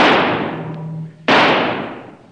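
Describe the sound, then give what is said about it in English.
Two sharp gunshot blasts from a radio drama sound effect of shooting an antelope, each followed by a long fading tail. “Kiva just shot an antelope.”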